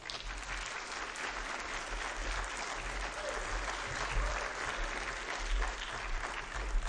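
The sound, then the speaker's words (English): Audience applause during a sermon: dense, loud clapping from many hands, steady and unbroken throughout. “We don't clap very often, but that deserves a clap.”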